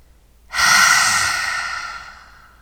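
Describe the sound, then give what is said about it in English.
A single long, deep breath drawn in, loud at onset and then gradually tapering off, with no talking. “Make as much or as little noise as you feel comfortable with. Let's do it again. I won't count. Deep breath in. Hold.”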